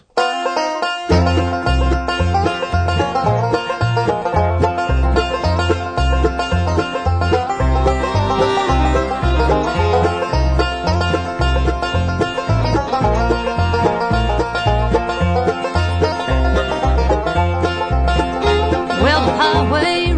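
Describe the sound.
A bluegrass tune on guitar, banjo, mandolin, bass and fiddle, with bright plucked strings over a steady, driving rhythm that runs loud and unbroken throughout.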